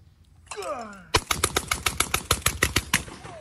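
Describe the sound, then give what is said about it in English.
Rapid gunfire from a semi-automatic 12-gauge shotgun: a fast, evenly spaced string of many sharp, loud blasts in quick succession, each with a short decay. “There's something about a semi-automatic 12-gauge. It just cha-ching, cha-ching. What was that? 1, 2, 3, 4, 5, 6, 7, 8, 9, 10, 11, 12? It was like 12 shots.”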